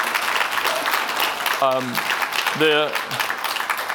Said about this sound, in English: I mean, give him a round of applause.